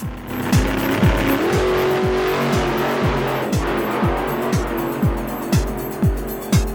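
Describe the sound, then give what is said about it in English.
Racing motorcycles on a track: loud, high-revving engines with a rapid, regular series of sharp pitch drops, like quick gear changes, continuing throughout. “let's fast forward to the racing action and see what actually went down on the track.”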